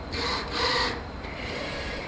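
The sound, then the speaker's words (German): Mechanical rasping and whirring from a laboratory robot arm dispensing tiny amounts of liquid into small wells of plastic plates in an automated organoid facility; two brighter surges give way to a steadier hum. “Statt zu schweißen und zu schrauben, spritzt ein Roboterarm kleinste Flüssigkeitsmengen in winzige Mulden von Plastikplatten.”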